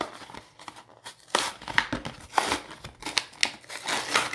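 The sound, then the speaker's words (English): A toy's plastic packaging, a Tech Deck fingerboard set, is ripped open in a busy run of irregular crinkling, crackling and tearing bursts, moderately loud, with no voices. “All right, we got a tech deck. We gotta rip this baby open.”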